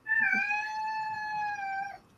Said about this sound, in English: Excuse my cat. We'll wrap up here soon, kitty cat.